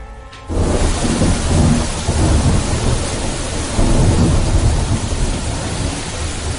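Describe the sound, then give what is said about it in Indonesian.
Rain falling at night makes a dense, steady, loud hiss over a deep rumble that holds throughout, after a quieter opening moment. “Mari kita nikmati malam hari ini di tengah hujan yang ada, dengan segala bentuk keheningan.”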